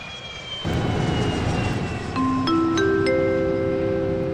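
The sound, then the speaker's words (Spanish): Electric airplane in flight: a steady, loud motor drone fills the air while thin whining tones enter partway through, each new one higher than the last, with no talking. “Bienvenidas y bienvenidos al avión Honda Air, el primer avión del mundo que vuela con energía eléctrica.”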